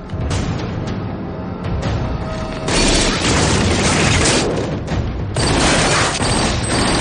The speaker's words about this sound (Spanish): Daggy, afectado por la pérdida, se levanta con rabia y abre fuego contra los policías de fuera, a través de la ventana.